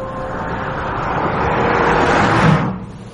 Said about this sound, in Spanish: El coche atraviesa distintos paisajes rurales. Luego se adentran por un camino de tierra y continúan el viaje campo a través,